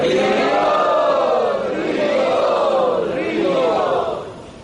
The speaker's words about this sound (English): let us welcome all of these special guests by very loudly chanting Hari Bol.